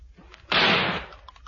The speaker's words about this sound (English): Put your fingers in your ears. I'm going to shoot the top of it.